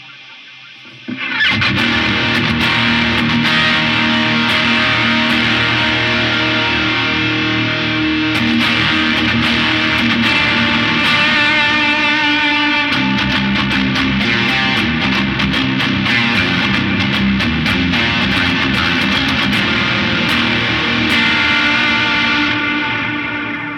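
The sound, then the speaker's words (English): Electric guitar played through Super Atmod and Noble Screamer pedals along with other effects: thick, distorted, sustained chords with a washy echo, loud and continuous for over twenty seconds after a brief silent start. “So, Super At mod and the Noble Screamer. running through all of those effects sound like this.”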